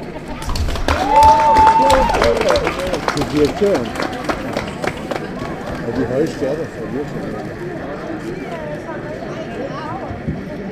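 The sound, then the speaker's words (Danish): Steady crowd chatter from many people talking at tables during a May Day gathering, a dense murmur of overlapping voices with scattered clatter, busiest in the first seconds. “Der er jo lidt meget støj, fordi I sidder og snakker ved bordene.”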